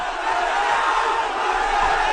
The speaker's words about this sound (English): Thousands of demonstrators in New Delhi attempted to march on Parliament today.